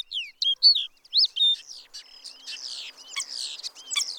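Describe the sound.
Bird song with innate, inherited song patterns: rapid, high-pitched chirps, whistles and trills tumble one after another, sharp bright notes early giving way to denser, buzzier twittering, with no voices.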